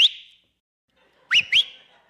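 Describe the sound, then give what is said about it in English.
A person whistling to call their kids: one clear high note, then a pause and two quick upward-sweeping whistles in a row, sharp and alone against silence. “they know my whistle, okay? They know me when I go, it's me.”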